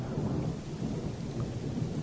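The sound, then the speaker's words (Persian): Heavy rain and thunder over a swollen, roaring river, heard as a dense, even wash of downpour with deep rumbling beneath it, holding at a constant loud level throughout. “باران آغاز شد. رودخانه پر صدا و خروشان در زیر بارش قطرات باران قوت گرفت.”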